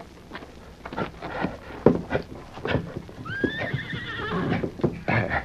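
A saddled horse whinnies in a rising, wavering call while tethered by rope to a log it is about to pull, amid scattered hoof clops and shuffling steps before and after the neigh.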